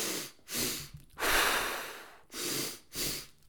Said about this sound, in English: so it's two breaths in and then a long sigh out.